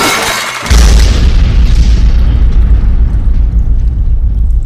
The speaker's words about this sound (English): Large object descending! Under attack! Bombs away!